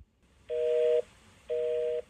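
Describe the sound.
Two steady telephone line tone bursts signal a caller calling in to a show. Each lasts about half a second, separated by a half-second pause, with nothing else heard.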